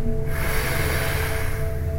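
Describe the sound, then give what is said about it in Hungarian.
An audible inhale during a stretching exercise: a steady, airy breath held for about two seconds over a soft, sustained tonal background. “így belégzés”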